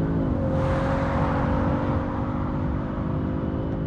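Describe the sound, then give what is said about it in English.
A car pulls back onto a motorway after stopping on the hard shoulder, its engine and road noise forming a continuous, even roar with a low steady hum that holds level the whole time, with no voices. “I let go of the handbrake, indicate, wait for a space, and pull back on the motorway.”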